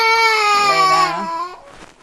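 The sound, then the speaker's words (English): A fussy baby cries while being dressed, letting out one long, sustained, high-pitched wail that breaks off into a few softer, choppy sobs and a brief sharp sound at the very end. “Fussy baby.”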